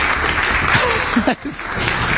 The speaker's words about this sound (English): Let's just have a round of applause for 100 of 100.